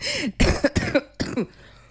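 A person with flu coughs in a quick fit of several harsh, voiced bursts, loud and close together, with no talking over them.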